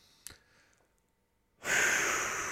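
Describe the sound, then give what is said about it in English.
Deep breath in during a guided breathing exercise: a brief soft click, then a quiet pause, then a long, loud, airy inhale that begins suddenly and lasts to the end. “Take a deep breath in.”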